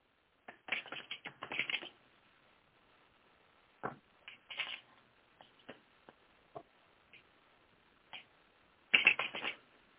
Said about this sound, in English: 1 second while I shuffle.